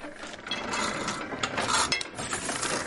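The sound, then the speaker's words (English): Clanking, rasping mechanism of a nearly 100-year-old, 360-kilogram Platon letterpress with no motor, worked by foot pressure to print designs on paper; a steady, dense grinding and ratcheting texture with a few sharper clicks, no talk. “The company uses a 360-kilogram Platon letterpress machine to make its creative designs.”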